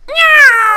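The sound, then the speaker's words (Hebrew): A female cat meows from a basket: a single loud, clear, drawn-out meow whose pitch eases downward toward the end. “המפקד, זה חתולה. קניתי חתולה כדי שהכלב לא יהיה לבד.”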